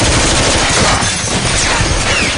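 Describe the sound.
Dense, sustained gunfire rakes a store in a loud, continuous barrage of rapid shots that riddle it with bullets, with no talk over it.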